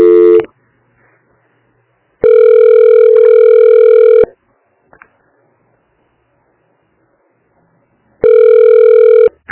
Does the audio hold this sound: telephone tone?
yes